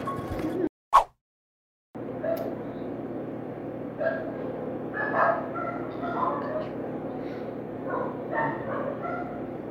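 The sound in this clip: A neighbour's dogs barking, a few sharp yips and woofs scattered over a steady wash of background noise after a brief drop into silence near the start.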